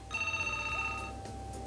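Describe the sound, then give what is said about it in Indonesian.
A telephone ringing on a radio call-in line: a steady electronic ring tone with a bright, buzzy edge sounds for about a second, pauses briefly, then begins again, with no voices. “masih menanti dering telepon di 3293 kali untuk Anda yang ingin berpartisipasi, pendengar setia Pro 1 dimanapun berada dalam program siar Halo RRI. Dan sudah berdering”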